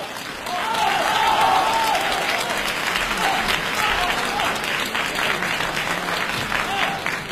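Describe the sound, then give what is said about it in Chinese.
Audience applause at a crosstalk comedy contest as two performers take the stage: dense, sustained clapping that rises quickly and carries on steadily to the end, with a voice faintly audible over it. “感谢大家的掌声， 谢谢朋友们的热情。”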